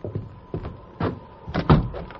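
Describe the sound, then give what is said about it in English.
A door being closed and locked: a few muffled thumps and clunks in an uneven sequence, ending with a heavier, louder knock, with no voices. “We'll leave him here and lock the door.”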